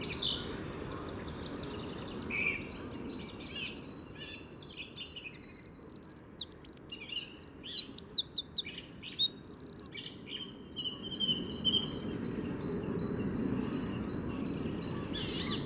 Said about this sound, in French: la grimusienne vient de s'envoler, et du coup le troglodyte reprend son chant un peu plus puissant